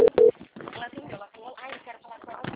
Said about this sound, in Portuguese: Ligando de novo.